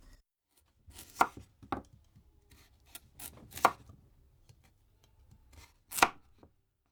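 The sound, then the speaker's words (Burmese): A knife slices peeled carrots and potatoes into thick rings about 2 cm wide, making several faint, irregular chopping thuds against a board with quiet gaps between them. “အခုနောက်ဆုံးမွန်လာဥနီနဲ့အာလူတွေကိုအခွန်ခွာပြီးတော့2စင်တီမီတာအထူးအကွင်းလိုက်လီးပါမယ”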